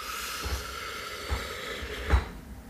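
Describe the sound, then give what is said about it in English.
Breath blown straight into a microphone during guided breathing, heard as three short, low, thumping puffs with an airy rush, spaced roughly evenly over a faint background. “And breathe out. I think I'm blowing right in the microphone.”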